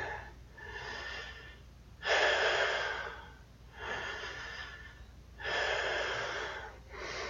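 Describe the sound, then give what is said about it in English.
Slow, deep breathing during a guided relaxation session: several long, drawn-out breaths come in steady alternating swells of soft, airy noise, with no talk. “Breathe with me again.”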